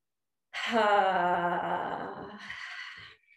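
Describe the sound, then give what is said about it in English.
Audible breath out after a deep breath in, heard as a long, voiced, sighing exhale with a moaning tone that fades over about two seconds. “while I'm doing it, I'll take a deep breath in and then an audible breath out.”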